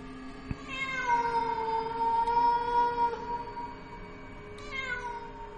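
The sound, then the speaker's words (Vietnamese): A cat yowls eerily at night, letting out a long, drawn-out, wavering cry that holds a high pitch, then starts another rising wail near the end, fairly loud and alone. “tiến dần về cái chỗ con mèo vẫn đang kêu réo lên từng hồi. Những tiếng kêu ghê rợn vang lên trong màn đêm, nghe đến lạnh tai, buốt gáy.”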